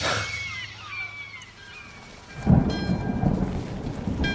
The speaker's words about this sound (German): An einem bewölkten Gewittertag Ende August